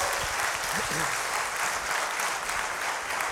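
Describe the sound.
Audience applause welcoming an economist guest on stage, a dense, even wash of clapping throughout, with a brief voice near the start.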